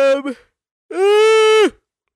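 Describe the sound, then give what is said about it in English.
A person yawns aggressively with one long, loud, voiced yawn that holds a steady tone and then drops off sharply. A brief vocal sound comes just before it. “You yawn so aggressively. Yeah, I just have to get it out. You yawn with a grudge.”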